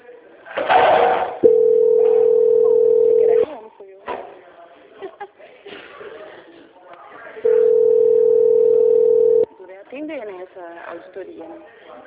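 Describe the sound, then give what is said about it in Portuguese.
A telephone tone sounds twice during a bank call transfer. Each tone is a steady, loud hum of about two seconds, and voices talk before, between and after them. “Que eu vou transferir a ligação para a sala de consolidação do banco, que dará andamento à nossa contratação.”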